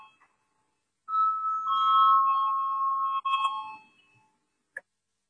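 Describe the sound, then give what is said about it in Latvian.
A bell rings in a parliament chamber to call a vote, one steady mid-pitched tone lasting about two seconds, then a short fading tail and a brief click, with no voices. “Lūdzu, zvanu, balsosim”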